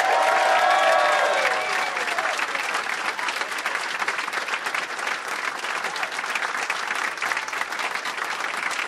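Audience applause welcoming three comedians onto a stage: loud, dense clapping that runs steadily for the whole stretch, easing slightly after the first moments.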